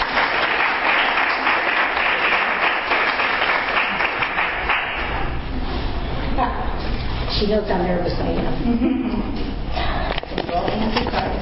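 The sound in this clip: An audience claps loudly and steadily for several seconds to welcome a woman onto a stage. The applause fades as she starts speaking.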